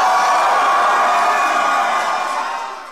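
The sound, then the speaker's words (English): Cheering from the crowd at the Young Black Leadership summit in the White House: loud, continuous massed voices and whoops that hold steady, then fade toward the end. “those are cheers coming from the Young Black Leadership meeting in the White House on Friday.”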